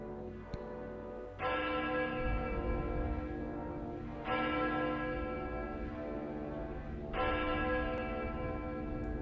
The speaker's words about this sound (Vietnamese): Tiếng chuông ở nhà thờ đã điểm nửa đêm.